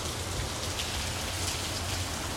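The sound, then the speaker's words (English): Rain falling in a steady, dense hiss of countless drops striking a surface, unbroken and even in loudness throughout, with no voices. “So I'm sitting here looking at the rain.”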